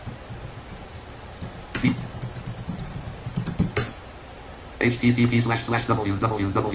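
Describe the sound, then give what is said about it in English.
Typing on a computer keyboard: rapid, uneven clicking keystrokes run throughout, with a few louder bursts of keys, and a voice speaks over the final stretch of typing. “If I can type.”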